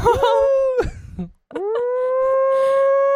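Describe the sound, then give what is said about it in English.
A human voice imitating a siren with two loud, sustained wailing tones separated by a brief pause. The second tone sweeps quickly upward and then holds a steady pitch. “And you have to have like that siren sound randomly”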